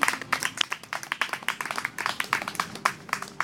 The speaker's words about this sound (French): On applaudit pour Gauthier!